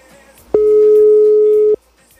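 A telephone busy signal on a call to a line that is engaged: one loud, steady electronic tone at mid pitch, held for about a second over faint background hiss.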